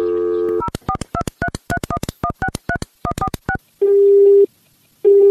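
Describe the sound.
A telephone call being dialed: a brief dial tone, then a rapid run of many touch-tone beeps, followed by a steady ringing tone that returns after a silent pause.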